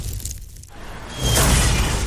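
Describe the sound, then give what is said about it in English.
A roof and carport are smashed by a falling space capsule: after a brief hollow lull comes a loud, broad crash with a rushing roar and shattering debris that sustains to the end. “Smashed roof. Shattered carport. Nothing like a rogue space capsule to bring you back down to Earth”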